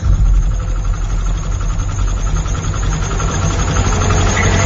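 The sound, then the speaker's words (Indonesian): A motorcycle engine idling: a loud, continuous low rumble with a steady hum and vibration, even in pitch throughout. No voices. “Dan akhirnya motorku kembali menyala.”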